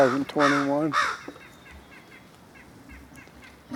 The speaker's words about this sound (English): Crows are getting it within about 5 feet of it.